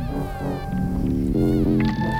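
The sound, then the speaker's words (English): A tabla-like pitched sound resembling a cat's meow, from a cat-themed music track. Sustained wavering tones sound continuously with shifting low percussive notes. “It sounds like a cat. Yeah, that tabla sounding thing,”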